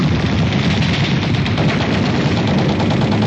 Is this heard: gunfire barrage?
yes